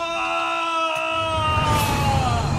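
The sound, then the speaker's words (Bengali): A human cry of distress rises from tall grass near a tent camp. It is loud, drawn out and steady in pitch, sagging slightly toward the end as a rougher, noisy layer swells beneath it. “হঠাৎ তাঁবু থেকে কিছু দূরে লম্বা ঘাসের জমির মধ্যে মনুষ্য কণ্ঠের আর্তনাদ শোনা গেল”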